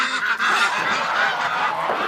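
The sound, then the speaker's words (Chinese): Goose honking, from a large white domestic goose: harsh, nasal honks sound almost continuously and loudly for about two seconds, with no talk. “这鹅一洗澡可白了，天天早上起来一开门自己就下河了。”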